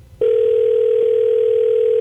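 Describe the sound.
A phone line connecting while calling a cell phone: after a brief click, a steady, unbroken electronic tone holds at an even, fairly loud level until the end, with no voices.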